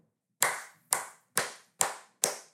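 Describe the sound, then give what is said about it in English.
Hand clapping as a short round of applause: five sharp, evenly spaced claps, crisp and bright, each decaying quickly, heard alone with nothing else. “Round of applause for you, man.”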